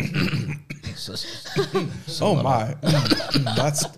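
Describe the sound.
Coughing and throat clearing from someone with something caught in the throat, mixed in with ongoing talk; people speak throughout, with the rough bursts set among the voices.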